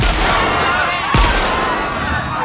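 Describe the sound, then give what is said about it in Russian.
An officer fires a gun into the air amid a crush of people before the remaining lifeboats on a ship's decks, one sharp crack cutting through a dense, continuous roar of crowd noise. “На палубах начинается давка перед оставшимися шлюпками. Офицер стреляет в воздух.”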